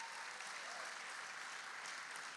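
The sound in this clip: Audience applause welcoming a speaker called up to the stage: dense, even clapping that holds steady throughout with no voices on top.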